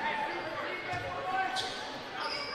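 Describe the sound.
During a basketball game, the ball is bounced out of bounds with a couple of short thumps, heard over constant crowd murmur and a commentator talking.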